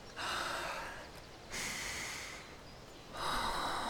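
People breathe together as a shared calming exercise: three long, airy breaths, each swelling and then slowly fading, soft and unhurried, with no talking.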